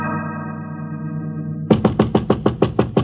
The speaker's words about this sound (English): Sorry, I knocked,